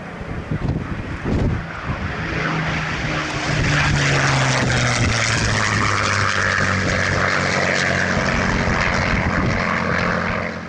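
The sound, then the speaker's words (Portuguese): A Rolls-Royce Merlin aircraft engine running, a steady, powerful propeller drone with rough, throbbing low tones and a wash of wind noise throughout. “escute o som de um Merlin, um Rolls Royce Merlin. Escute agora.”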